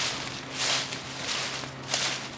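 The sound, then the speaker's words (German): Footsteps cross open country through rustling leaves, giving a few crunchy, rhythmic steps at moderate loudness over a low steady hum. “Da sind sie wieder, die Schritte im raschelnden Laub. Sie gehen querfeldein.”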